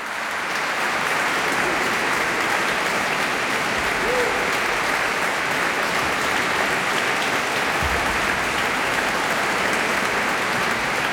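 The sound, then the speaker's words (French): Sustained applause from a festival audience after an a cappella choir concert at a music festival in Vézelay. The clapping is dense and steady from start to finish, with no voices over it. “comme le prouve ce concert acclamé par les festivaliers des musicales de Vézelay”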